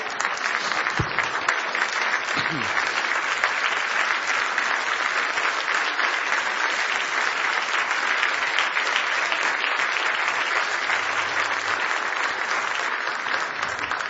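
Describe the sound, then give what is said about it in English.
A church audience claps in praise, many hands beating together in a steady, even stream that holds at the same loud level for the whole stretch without a break. “Let's stand together. Let's give Jesus Christ a clap of praise today.”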